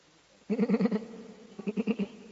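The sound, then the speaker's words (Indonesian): Sheep bleating in two wavering bursts, each quavering with a rapid pulse, fairly loud against a quiet, low background. “domba nih”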